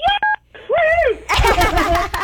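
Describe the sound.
A caller's phone beeps during a call, a few short electronic tones at the start, followed by people talking.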